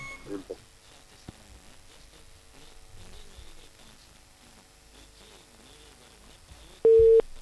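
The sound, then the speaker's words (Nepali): A telephone busy tone after a caller's call drops partway through a flute tune played down the line: one loud, steady mid-pitched beep near the end, following faint line hiss. “उहाँले बाँसुरीको धुन सुनाउने हामीलाई प्रयत्न गर्दै हुनुहुन्थ्यो, बिचमा उहाँको phone कट्यो, हामीले बुझ्न सकेनौँ के भयो।”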